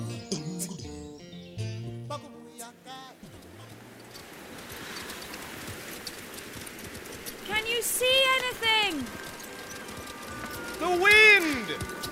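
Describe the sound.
Horses being ridden across the desert, their hoofbeats a steady, dense patter under a wind-like hiss after a short stretch of music, with voices calling out briefly over them.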